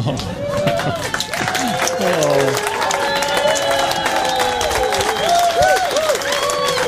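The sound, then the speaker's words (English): A studio audience gives a standing ovation, with sustained, loud applause and many voices calling and cheering over the clapping throughout. “I'm going to stand up and lead our audience here in a standing ovation for this man.”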